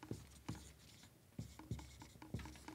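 Pen scratching as something is written down, very faint, with a few sharp strokes and taps over a low steady background.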